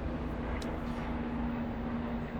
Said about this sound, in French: C'est un hélico de luxe en plus. Ouais, dis donc. Et vraiment bas, hein. Je crois qu'il y en avait un autre là-bas en fait. Il y en avait deux, c'est pour ça que je les entends.